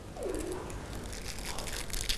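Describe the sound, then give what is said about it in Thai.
Dry crinkling of cellophane paper crumpled by hand during a children's craft activity, a faint, continuous crackle with no clear breaks. “เด็กๆขยำกระดาษแบบนี้นะคะ”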